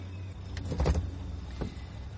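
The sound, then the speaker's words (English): A car pulls up outside a house at night, with a low steady engine rumble and a few brief mechanical clunks and whirs. “Outside her house at night, Loretta pulls up in her car.”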